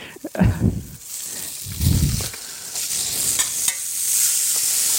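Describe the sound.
Cavolo nero kale frying in a pan gives a steady, bright sizzle throughout, broken by a few low stirring thumps and scrapes.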